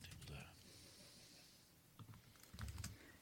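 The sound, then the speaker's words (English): Soft typing on a computer keyboard: a few short, quiet bursts of key clicks, with a faint hiss between them. “So I'm just going to type in here, social distance.”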